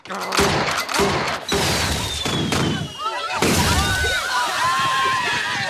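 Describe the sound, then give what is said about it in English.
A prison guard fires tear gas at a prison rodeo: a rapid burst of loud, sharp bangs, followed by whistling, whooshing streaks and hissing bursts as the canisters fly and scatter, all dense and loud throughout. “The guard wakes up, shoots tear gas in everybody.”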